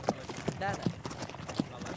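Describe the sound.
Horse hooves clip-clopping as a horse pulls a wagon, a few spaced hoof knocks heard faintly beneath a talking voice.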